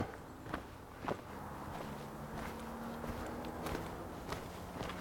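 Footsteps of people hiking on a trail: a series of irregularly spaced, crunchy steps over a steady background, with no talking.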